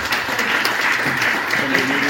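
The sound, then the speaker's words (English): Audience applause at a community forum hosted with community partners: dense, continuous clapping that stays loud and steady for its short length. “And so with that, again, another round of applause for Stephanie Nguyen.”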